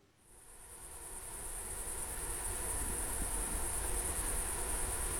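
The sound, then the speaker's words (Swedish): Humming insects in a lakeside forest by Hjälmaren on a late, dark August evening: a high, continuous buzzing drone that swells in over the first couple of seconds, then holds steady and fairly faint. “Det är en sen och ganska mörk kväll i augusti i en strandskog vid Hjälmaren. Och ni ska få höra bimasken.”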